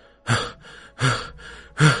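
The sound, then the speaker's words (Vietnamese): A man pants after waking from a nightmare. Three loud, breathy gasps come at an even pace, with quieter breathing between them and no speech. “Tiêu Lăng bật dậy trên giường thở hổn hển”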